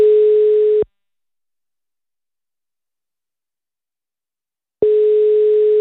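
A telephone line sounds while a call is being placed: two long, steady tone bursts at a single pitch, separated by about four seconds of silence.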